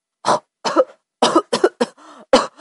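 A man chokes on rice porridge and coughs harshly: several loud, spluttering bursts separated by short gaps, with a brief rasping gurgle before the final cough.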